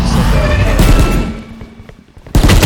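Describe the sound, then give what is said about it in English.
Gunfire in a tactical first-person shooter video game: a rapid burst of sharp, crackling shots that thins out into quieter rumble, then another loud burst breaks in right at the end. “You got a fucking shot on me. Yeah, it sounds like five shots on me that fast?”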